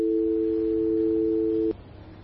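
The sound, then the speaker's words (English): A steady telephone tone sounds after a call is cut off, a constant low two-pitched hum holding for nearly two seconds before stopping abruptly, leaving only faint background noise. “She cut the phone, Tinashe. She cut the phone.”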